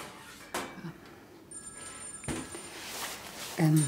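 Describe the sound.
A telephone rings in a few short, bright bursts separated by pauses, with voices heard briefly around it.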